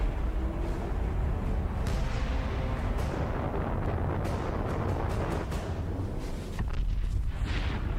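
Nuclear bomb explosion in a video game: a loud, sustained blast roar of low rumble mixed with crackling bursts that continues through the whole clip without voices.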